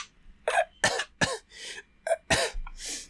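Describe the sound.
Choking coughs and raspy throat clearing come from a man who feels his throat closing up. Many quiet, strained bursts follow one another in an uneven rhythm, with short gaps between them.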